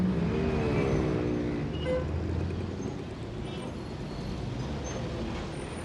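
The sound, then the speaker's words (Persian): A car drives into a shopping arcade parking garage, its engine and tyre rumble steady and fairly loud throughout, with a whining tone that fades early on; no voices. “عباس با ماشین وارد پارکینگ پاساژ می شود”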